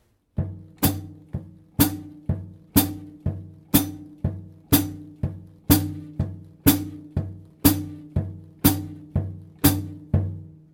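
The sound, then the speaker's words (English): A slow jazz groove on a drum kit: a very soft, feathered bass drum plays four to the bar while a firm, crisp hi-hat chick lands on beats 2 and 4, repeating in a steady, even pattern. “I hope you could see and hear the dynamic separation between the two feet. The bass drum really needs to be very soft and the hi-hat is really fairly strong.”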